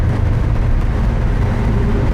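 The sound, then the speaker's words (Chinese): A car engine runs at full throttle with the accelerator floored, a steady, loud, low roar that holds without rising or breaking. “踩到底吧，油门。 已经到底了。 再快点。 不行了，到底了。车都快散了。”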